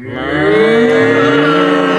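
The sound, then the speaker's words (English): Cattle mooing from a team of cows: a loud, sustained, low moo with rich harmonics that drones on for two seconds. “coming right at us, driving a team of cows.”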